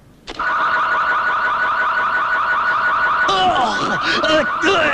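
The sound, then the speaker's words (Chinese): A car alarm blares loudly and alone, starting with a steady, piercing electronic tone and then switching to a rapidly sweeping, warbling siren pattern. “我这种车子的报警信号是很灵敏的。”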